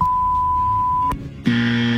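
A game show buzzer sounds after a wrong guess in a word-guessing game: a steady high beep, a short gap, then a loud, harsh, low buzzing tone that holds to the end.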